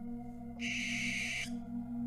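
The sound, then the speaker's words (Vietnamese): An owl's eerie call near a river at night: one sustained high screech of under a second, over a steady low hum. “Con cú gần đó vỗ cánh bay đi, chỉ ném lại những tiếng kêu đầy ma quái.”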